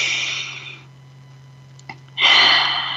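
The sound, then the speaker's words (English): A deep breath: a long, breathy inhale, a quiet pause, then a loud, airy exhale. “Let's take another breath together.”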